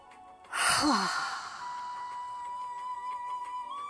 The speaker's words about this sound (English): Let's do that again, a deep breath in.